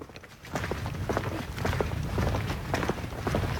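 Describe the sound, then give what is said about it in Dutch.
Footsteps fall at a steady walking pace along a dike near a lake with reed beds. The soft, regular treads sit over a constant outdoor background. “We lopen nu op de dijk”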